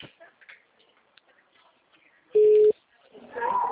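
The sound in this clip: A telephone line tone sounds after a dropped call as a single short, steady mid-pitched beep. It stands out loudly after a few faint clicks and ticks, and a voice begins speaking just after it.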